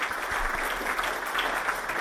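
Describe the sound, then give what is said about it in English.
Applause after a poem reading: dense, steady clapping from a group, holding an even level for the whole two seconds with no clear voices. “Oh, round of applause.”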